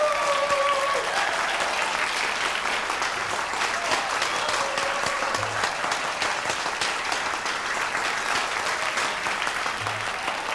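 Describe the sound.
Audience applause welcoming a singer onto the stage, a continuous, even roar of many hands clapping that holds at a moderate level throughout with no one speaking over it.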